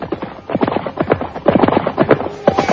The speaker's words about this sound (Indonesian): Mereka terus berkuda menyusuri tepi hutan tarik.